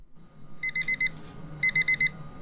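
An electronic alarm clock goes off while plastic melts for moulding, sounding two short bursts of rapid, high, bright beeps separated by a brief pause.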